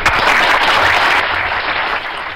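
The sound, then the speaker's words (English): Applause sound effect played as a round of applause for a correct Tic Tac flavour guess: dense, even clapping at a steady level throughout. “I should give you a Tic Tac round of applause or something, shouldn't I? Because you correctly guessed that particular one.”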